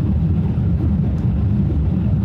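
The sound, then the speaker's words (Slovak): Loud, steady low rumble inside a car with battery recuperation, driven hard in sport mode up to about 180 km/h. The engine and road drone is dense and even, with no clear change in pitch. “Skúsime dať do režimu šport. Teraz už počujeme, ako tlačí plyn, čo to dá, ale 180 nám ukázalo limit.”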